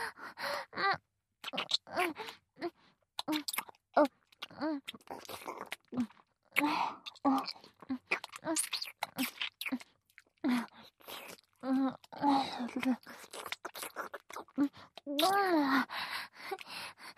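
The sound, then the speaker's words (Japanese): Wet kissing and lip-smacking sounds repeat many times in an irregular rhythm, mixed with gasps and breathy voiced sounds. “それじゃあ、先生のファーストキス、いただきますね。”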